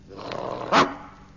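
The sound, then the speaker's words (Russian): A bulldog gives a single short, gruff bark that rises sharply over a faint low background and fades quickly. “С просонок дежурный бульдог рявкнул так, что под лисой со страха оказалась лужа.”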